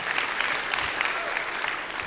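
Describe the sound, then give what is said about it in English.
Audience applause: a thick, steady wash of many hands clapping that holds at an even level throughout, with no break or voices standing out. “Let's give them a round of applause, but don't leave.”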